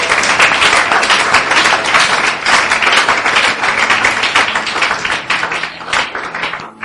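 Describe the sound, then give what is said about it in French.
Loud, continuous applause rises from a church audience acclaiming the Lord during a French-language service. The dense clapping stays steady for the full seven seconds. “Est-ce qu'on peut acclamer le Seigneur ce matin?”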